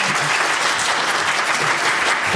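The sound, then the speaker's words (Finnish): Audience applause from a panel discussion in a hall, thanking the panelists. The clapping is dense, loud and steady from start to end, with no voices standing out. “Tässä kohtaa kiitos panelisteille ja valtavat aplodit, eikö niin?”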